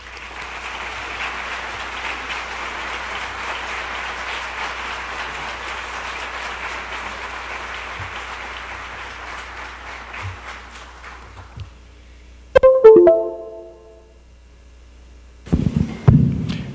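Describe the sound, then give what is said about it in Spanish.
An audience at a conference gives a welcoming round of applause to a speaker, a steady, moderately loud hiss of many hands for about twelve seconds that thins out, followed by a few brief, sharper noises. “Vamos a recibirlo con un fuerte aplauso.”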